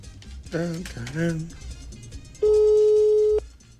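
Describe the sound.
A ringback tone on an unanswered mobile call sounds once as a steady, even beep lasting about a second. Brief talk comes before it.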